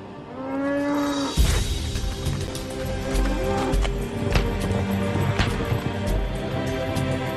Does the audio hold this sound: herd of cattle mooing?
yes